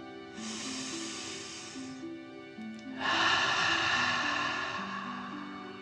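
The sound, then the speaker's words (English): Two long, forceful breaths of a breath-of-fire breathing exercise, drawn in through the nose and pushed out through the mouth, heard as a rushing hiss, the second breath louder and longer. “Breathing in through your nose and breathing fire out of your mouth. Again, deep breath in and out.”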